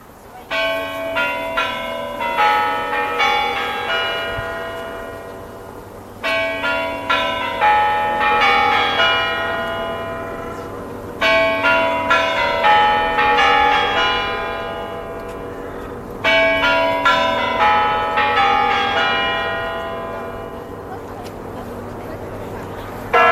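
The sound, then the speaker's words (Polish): Kremlin clock chimes ring out from the clock tower topped with a ruby star. A melodic bell phrase of many struck, sustained tones repeats four times, each phrase ringing on and fading before the next begins. “Kremlowski zegar zwierzy, tej najbardziej znanej, z największą rubinową gwiazdą, wybił właśnie nam kurantami znak, że powinniśmy zacząć już naszą audycję, której bohaterem jest Maciej Jastrzębski.”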